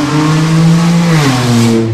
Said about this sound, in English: I think that was a Saturn Sport Utility Vehicle, wasn't it? The Saturn view. That was so pathetic. That was all of the sound.